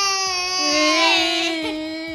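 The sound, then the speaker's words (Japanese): A baby crying hard while being held by its father, producing a sustained, high, wailing cry that holds steady for a couple of seconds and swells slightly midway. “マジ泣き入りまーす。 お父さんが抱っこしてくれたよ。”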